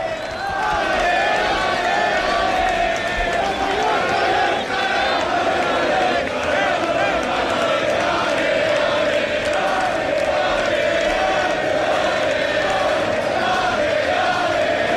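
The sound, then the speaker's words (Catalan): A crowd of about 1,500 fans waits at Camí dels Reis for the Real Mallorca team bus, making a loud, unbroken roar of shouting and cheering that holds steady from start to end. “Són 1.500 persones en el moment que atura aquí en el Camí dels Reis el bus i començaran a baixar els protagonistes.”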